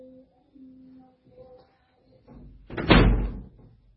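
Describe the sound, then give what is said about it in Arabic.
A door opening or closing: faint, low scuffling sounds lead up to a single loud, heavy thud near the end that decays quickly into quiet. “الباب”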